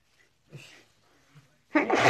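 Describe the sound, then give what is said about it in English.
A person sneezes once, a sharp, loud burst near the end, preceded by a couple of faint breathy sounds in near silence. “Sorry if I'm sneezing”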